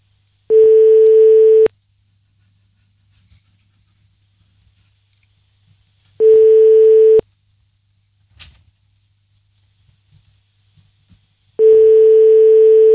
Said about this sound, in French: Pinocchio Testiboule, on compose le numéro.